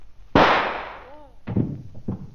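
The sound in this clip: A single sharp gunshot cracks as a woman shoots herself, loud and abrupt with a quickly fading tail. A brief cry and then speaking voices follow.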